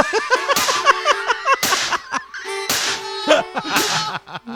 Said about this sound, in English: That sound is not the drum. It's not the snare drum. That's literally a Twisted Tea smack is the hottest snare sample of 2020.